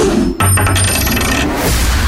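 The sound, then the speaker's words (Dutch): A tossed coin lands with a bright metallic clatter and ringing that lasts about a second before fading; no voices are heard. “Bij welke muntworp? Munt.”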